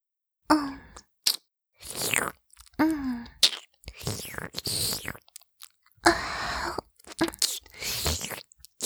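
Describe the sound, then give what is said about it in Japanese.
Wet licking and smacking mouth sounds of a tongue working over lips, arriving in irregular bursts with short silent gaps, mixed with soft voiced moans. “お姉ちゃんの舌で、隅から隅まで舐め回して、よだれまみれにしてあげますよ。 行きますよ。”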